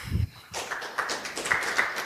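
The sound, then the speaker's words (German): An audience at a technical talk applauds as a speaker is introduced. After a brief thump and a short pause, a steady, fairly soft wash of clapping continues to the end. “Ich bitte euch um einen herzlichen Applaus für Jürgen Blümer.”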